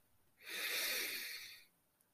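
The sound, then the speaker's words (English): A single deep breath drawn in through the nose, a soft, airy inhale that swells for about a second and then fades, faint and alone against quiet. “take three deep breaths in through the nose”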